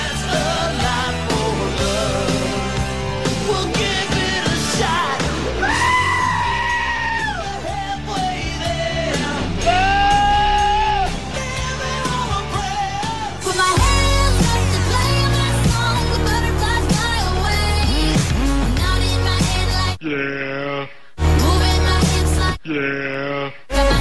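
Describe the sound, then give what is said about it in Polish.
Goat bleats remixed into well-known pop hits, with the animals' wavering cries standing in for the sung melody over a loud, continuous backing track that drops out in brief gaps near the end. “W sieci można znaleźć znane piosenki, w których śpiewają kozy. Nagrane różne odgłosy tych zwierząt zmiksowane są z wielkimi przebojami.”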